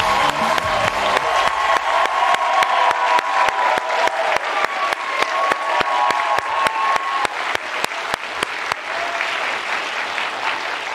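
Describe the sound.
Studio audience applause and cheering welcome a national champion women's basketball head coach onto a late-night talk show: loud, dense, steady clapping with whoops and shouts, holding throughout and easing slightly toward the end.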